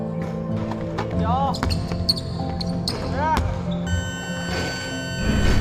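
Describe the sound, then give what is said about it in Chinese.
Basketballs bounce repeatedly on a court during a team's high-intensity, timed shooting drill, with players split into four groups. Many dull thumps fall in an uneven rhythm over a busy background, with voices audible throughout. “为提升队员实战条件下的投篮命中率，每天训练最后阶段，队员们被分成四组，他们要在规定时间内完成高强度的投篮练习。”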